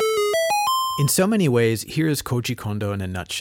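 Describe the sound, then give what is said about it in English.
The secret discovery jingle from The Legend of Zelda video game: a short run of bright, rising synthesized notes, each stepping higher, lasting about a second before a man starts talking. “The other jingle deserving special attention is an impossibly effective, nearly infamous slice of music. It's the secret sound.”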